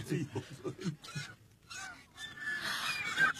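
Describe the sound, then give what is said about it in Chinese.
Honking calls from swans landing on a palace rooftop: several low, nasal honks in quick succession, followed by a denser, noisier stretch of calling. “皇上，看天鹅。 天鹅落到翠微宫宫顶上了。”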